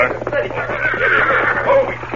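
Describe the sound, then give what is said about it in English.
A horse neighs as it is reined up after hard riding, a sound effect in a Western radio drama. A single loud, wavering whinny fills about two seconds. “He was riding hard, and he reined up breathless with excitement. Oh, Silver. Oh, steady,”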